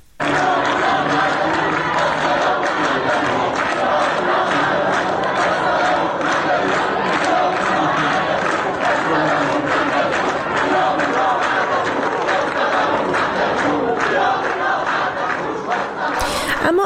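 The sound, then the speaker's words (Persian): University students at a campus sit-in chant protest slogans: a loud, dense crowd of voices shouting in a continuous rhythmic chant that carries on without a break. “از دانشجویان دانشگاه آزاد عراق و همینطور دانشکده علوم انسانی دانشگاه سراسری عراق هم در محوطه این دانشگاه دست به تحصن زدن، شعارهای اعتراضی سر دادن در روز یکشنبه. با هم صدای دانشجویان دانشگاه آزاد عراق رو بشنویم.”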